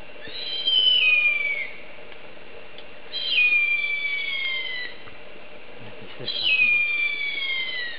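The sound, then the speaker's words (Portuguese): Harpy eagle calling: three high, thin whistled cries, each sliding downward over about a second, spaced a few seconds apart above a steady hiss. “o bicho do último episódio era uma arpia linda, maravilhosa.”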